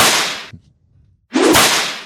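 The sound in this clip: A whip crack sound effect sounds twice: two loud, sharp swishing cracks, each with a bright, noisy burst, separated by a brief near-silent gap.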